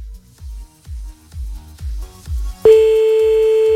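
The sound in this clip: Telephone line tone as an outgoing call is placed late at night: a single steady beep cuts in sharply near the end and holds, after a stretch of regular low thumping pulses.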